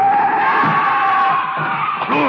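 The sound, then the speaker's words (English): A car skids in the street with a loud, sustained tire screech whose pitch wavers slightly throughout, over lower engine and road rumble. “The car. They're trying to hit him.”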